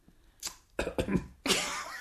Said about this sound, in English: Sorry, I got something in my throat.